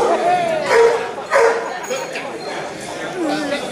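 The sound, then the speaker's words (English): A dog barks and yips a few times in short bursts, mixed in with people talking over it. “I'm sorry, doggy, but I can't answer that one.”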